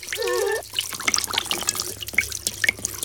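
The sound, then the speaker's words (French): Water running from a white hair-salon wash basin onto hair: a soft, faint trickle with scattered small drips and splashes. “L'eau coule doucement sur les cheveux.”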